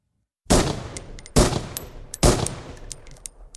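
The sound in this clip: Three sharp gunshots ring out in a shooting training room, spaced almost evenly apart. Each loud blast is followed by a bright metallic ringing and a lingering tail before the next one.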